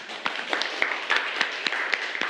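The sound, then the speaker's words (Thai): Children in a classroom clap for a classmate who has just answered. Many sharp claps come in a loose, uneven patter, with no steady beat. “เก่งมากปรบมือให้เพื่อนหน่อย”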